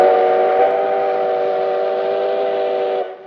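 A train at a station gives one long, loud, steady whistle blast with a rich, chord-like tone that holds evenly before cutting off near the end.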